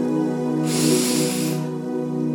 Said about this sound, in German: Und atme einmal ganz tief ein